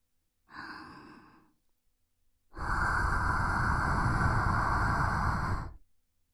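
Hot breath blown close to the ear: a short soft exhale, then after a pause a long, steady, airy breath lasting about three seconds. No talking is heard.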